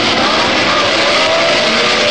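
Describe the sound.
Loud, continuous engine roar from racing cars, including BRMs, as they get away at the start of an 80-lap motor race on a 2.65-mile circuit. The dense blare is steady and unbroken.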